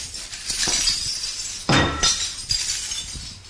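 Crockery is smashed with a cricket bat in a cupboard-like smash room piled with broken pieces. Loud crashes mix with bright shattering clinks, and one especially sharp hit midway is followed by a few more breaks and tinkling shards.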